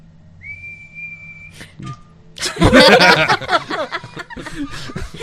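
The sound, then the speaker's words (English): A person whistles with pursed lips, one steady high note held for about a second, followed by loud chuckling voices. “What's whistling?”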